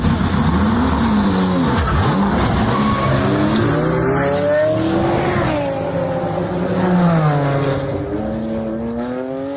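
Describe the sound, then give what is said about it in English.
Race car engine from a tech-adapted car built for disabled drivers, a loud steady roar whose pitch sweeps up and down as the engine revs and eases, heard alone without talk. “That's the sound of a car raced by Team Brit.”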